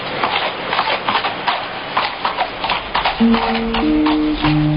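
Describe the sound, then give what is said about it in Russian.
Horses gallop, pulling a kibitka wagon, their hooves beating a quick, uneven clip-clop throughout. Steady tonal notes join in over the last second and a half. “ямщик свистнул, и лошади поскакали.”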